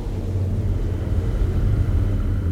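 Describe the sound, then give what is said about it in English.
Spaceship landing: a steady, loud, deep engine rumble with a low droning hum that holds without voices. “I think the distress beacon is working. Someone appears to be landing.”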